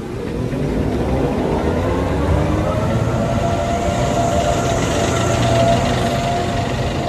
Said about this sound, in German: Die Zacke ist Stuttgarts Zahnradbahn. Die hat ihre Endhaltestelle hier unten im Kessel am Marienplatz.